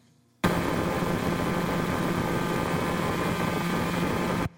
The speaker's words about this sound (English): another pulsar, another neutron star spinning 174 times a second